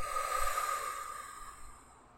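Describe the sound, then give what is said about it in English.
A deep breath in through the nose and out through the mouth during a guided breathing exercise, heard as a soft, airy hiss that swells early and then fades out over about two seconds, alone. “Let's take one deep inhale together in through the nose. Exhale out of the mouth.”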